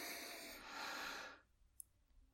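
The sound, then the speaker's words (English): A person draws one deep, airy breath in, a soft rushing inhale lasting over a second before quiet. “Now stop. Breathe in.”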